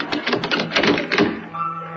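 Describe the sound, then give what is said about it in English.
A door being bolted shut gives a rapid run of knocking, rattling clacks that fade into a short quiet tail. “Bolt the door, bolt the door.”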